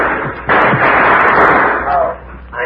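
In a radio drama shootout, a gunshot goes off as a sudden loud blast, followed by a long, noisy ringing tail that fades out.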